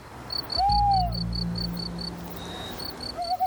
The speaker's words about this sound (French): on entend même parfois la chouette hulotte. Vous savez, c'est celle dont on fait retentir le ululement dans les films ou podcasts pour signifier qu'on est la nuit.